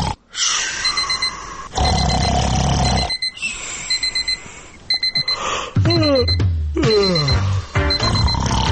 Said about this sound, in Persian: آیا صدای ساعت شما را بیدار نمی کند؟